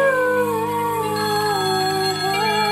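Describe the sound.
A telephone rings with a loud, steady electronic ringtone whose layered tones waver and dip slightly in pitch, sounding continuously for the whole stretch without any voices.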